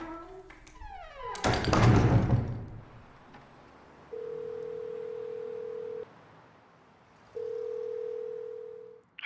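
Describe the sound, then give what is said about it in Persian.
A telephone call being placed: a clunking handling noise first, then two long, steady ringback tones separated by a pause of silence, each held for about two seconds at a moderate level. “ببین، زنگ بزن به استرایکر.”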